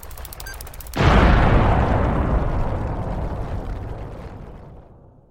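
A bomb explodes when its countdown runs out. A quick run of ticking beeps breaks into a huge, booming blast whose heavy rumble decays slowly over several seconds.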